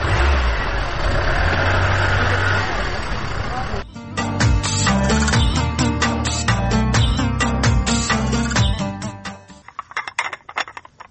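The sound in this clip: A car engine runs with a steady low drone under broad noise for about four seconds, then gives way to a rhythmic run of sharp clattering hits that thin out into scattered knocks near the end.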